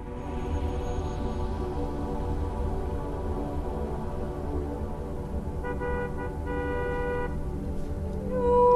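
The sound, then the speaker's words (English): A car moves off from a stop sign on a quiet street, its engine giving a low, steady rumble with a brief horn-like tone partway through, and the sound grows louder at the very end. “The car moves off again.”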